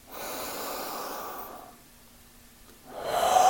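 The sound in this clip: A long, deep, breathy exhale rushes out steadily for over a second. After a quiet pause, another soft breath begins.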